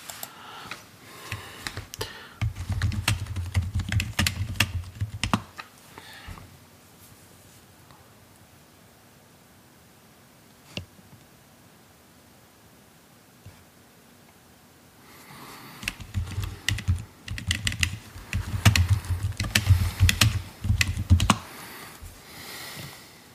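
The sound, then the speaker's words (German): Computer keyboard keys pressed to enter a BIOS Q-Flash utility with the End key: two bursts of quick, clattering key taps, separated by a quiet stretch with a lone click in the middle. “Ich glaube, für ins Q-Flash zu kommen, muss ich die End-Taste, also Ende-Taste, muss ich da drücken.”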